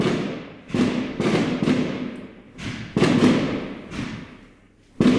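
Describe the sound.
Fireworks being set off, a rapid, irregular series of loud booming bursts, each dying away in a rumbling, crackling tail before the next, with a fainter pop among them and no voices.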